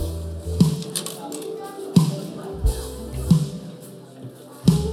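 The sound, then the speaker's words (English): Plastic taps and clicks as a wrapped gift containing a Tupperware container is opened at an Advent Christingle event. A handful of sharp, separate knocks are spaced irregularly over a few seconds. “Gift number three over here. Okay, can we open gift number three for me, please?”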